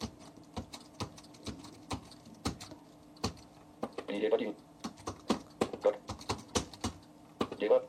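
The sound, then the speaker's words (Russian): Clicks from a braille keyboard as several dot keys are pressed together at once: many sharp clicks in an uneven rhythm, with short bursts of a voice in between. “Я нажимаю одновременно на те точки, которые мне нужны. Сейчас я напишу слово «привет».”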